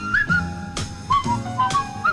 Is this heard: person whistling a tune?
yes